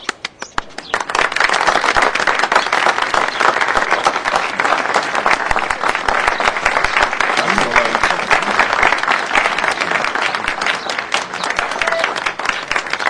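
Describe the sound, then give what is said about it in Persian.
A large audience claps at a gathering, answering a call to applaud. The clapping is dense and continuous, loud and steady throughout. “دست بزنید.”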